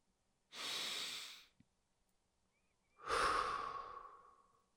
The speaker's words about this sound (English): at each period or exclamation point, question mark, whatever, then take a breath